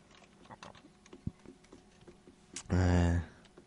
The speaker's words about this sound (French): je ne comprends pas, je vous l'écris sur le chat.